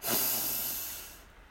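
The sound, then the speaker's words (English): A single deep breath drawn in, an airy, hissing inhale that swells quickly, then slowly thins and fades, heard alone with no talk. “So deep breath in”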